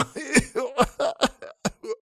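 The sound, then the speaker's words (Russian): A man coughs and clears his throat: a rapid series of short, rough, voiced coughs in quick succession, loud and close together. “Снова начал откашливаться дурень.”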